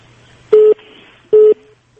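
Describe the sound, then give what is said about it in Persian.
Two short beeps of a telephone busy tone after a dropped call. Each is a steady mid-pitched tone lasting about a fifth of a second, evenly spaced, loud and alone. “متاسفانه که تماس ما قطع شد با عبدالکریم خان.”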